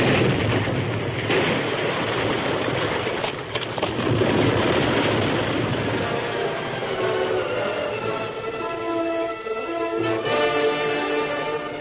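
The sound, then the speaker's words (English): Explosion blast in a radio drama: a loud, sustained rumbling roar that runs on for many seconds and thins out toward the end. “A blast! Face down. Hug the ground. Shield the girl.”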